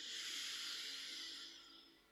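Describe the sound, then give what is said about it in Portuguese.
A half inhalation through the nose during Kapalabhati yoga breathing practice. It is a soft, airy hiss that holds steady for over a second, then tapers off. “Vamos inspirar a meio caminho e fazer 5 entre 5 a 10 expirações forçadas aí, Kapalabhati. Inspira.”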